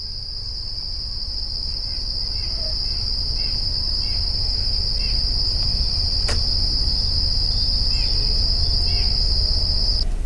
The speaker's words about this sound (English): It's pretty quiet out there right now. Yeah. Got some insects. Definitely. There are a couple nuthatches going off in the background.